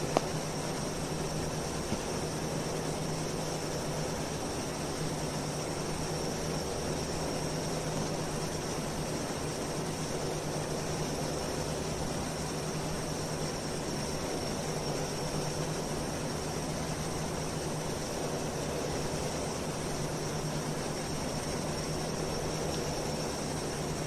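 Steady airplane roar from a plane flying at 450 knots, faster than it should be. A constant, unbroken engine drone with a thin high whine runs evenly throughout, with no voices.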